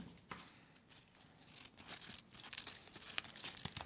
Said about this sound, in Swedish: Bara för att du tittar på mig nu så blir jag nervös och börjar klippa jätteslarvigt och fult.